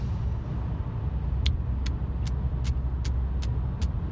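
Car driving on the road, heard as a steady low engine and road rumble, with a run of seven evenly spaced, faint high ticks through the middle and no talk.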